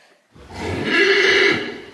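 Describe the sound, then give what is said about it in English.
A horse gives a single loud neigh, a whinny that swells quickly and holds for about a second before fading, heard alone. “That's right, we're talking about horses.”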